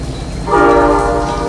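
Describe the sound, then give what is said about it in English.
A train in a period film draws up at a rundown covered platform, its low rumble joined midway by a loud, sustained horn or whistle blast that holds a steady pitch. “The train comes to a halt in front of a tumble-down covered platform.”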